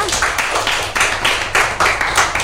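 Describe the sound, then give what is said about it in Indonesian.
Audience clapping for a young presenter at a school-style event: repeated, evenly spaced bursts of claps that form a steady rhythmic pattern. “Tepuk tangan dong untuk Tama.”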